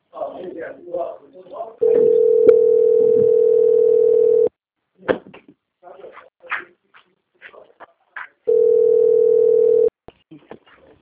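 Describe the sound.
Telephone tone while a bank call is transferred: two long, steady, mid-pitched tones, the first nearly three seconds and the second about a second and a half, with voices before and scattered sounds between them.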